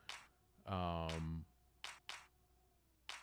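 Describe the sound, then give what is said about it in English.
Real hand claps recorded in a studio as a production sample, a few sharp single claps spaced irregularly and played fairly quietly, with a sustained tonal sound between the first claps. “our producer, our engineer, had us like actually record real hand claps.”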